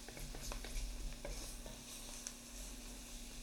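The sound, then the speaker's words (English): Venison pieces are stirred and coated in roux as they fry for a Cajun piquant, giving a quiet, continuous scraping stir with scattered soft clicks over a faint, steady sizzle and low hum. “So we're getting all of that coated with the roux.”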